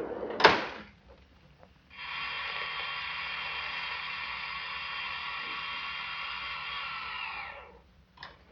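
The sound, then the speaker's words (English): Elevator machinery runs with a steady, even mechanical hum lasting about six seconds, set between a sharp door clunk at the start and another door knock as it stops. “Here, we can take this elevator. Three, please.”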